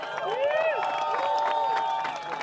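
A crowd cheers and applauds the women's winner at a prize presentation, with sustained clapping and a few sliding, whistle-like whoops rising and falling over the din.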